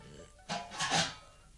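A golden alms bowl is set on a table and opened: a short scrape, then a longer rasping rub, both faint and with no voices.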